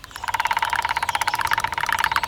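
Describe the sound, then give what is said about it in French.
Two woodpeckers drumming on a tree trunk with their beaks: a fast, even run of sharp taps that continues without pause, fairly loud and heard alone. “Les deux pivers martèlent le tronc avec leur bec à une allure folle.”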